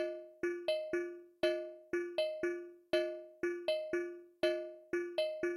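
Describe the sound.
A three-against-two polyrhythm sounded on pitched, bell-like struck tones: sharp attacks that ring and decay, forming an interlocking repeating pattern of two pulses, quiet and without talk.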